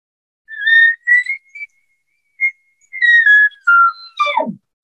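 Elk call imitating a bull elk's bugle during an engagement with another bull. Squealing, whistled high notes come in several bursts with short pauses, and the final burst ends in a steep drop of pitch into a low growl.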